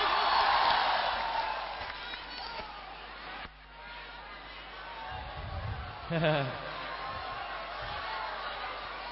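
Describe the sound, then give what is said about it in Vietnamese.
Loud applause and cheering from a live concert audience greeting a singer, loudest at the start and then easing off into a lingering crowd murmur as a man's voice talks over it. “Vỗ tay lớn quá, hồi hộp quá, ca không được luôn ha. Thôi lỡ rồi vỗ tay lớn luôn đi.”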